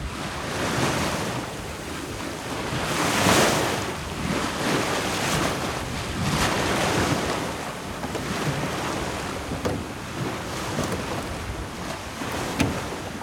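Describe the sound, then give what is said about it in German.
Wind and waves at sea surround a small rowing boat drifting off a sandbank with the tide. A constant rushing noise swells and eases in several broad surges, with gusts of wind buffeting throughout and no voices. “hatten mich Tide und Wind erfasst und trieben mich fröhlich auf den Weg nach Norderney.”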